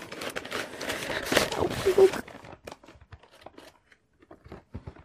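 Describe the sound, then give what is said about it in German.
Wrapping paper on a gift package tears and crinkles in a busy burst of rustling for about two seconds, then gives way to sparse, quieter rustles and handling noises. “Ich reiße auf, obwohl es, glaube ich, sehr schön ist, weil es fässt sich sehr schön an.”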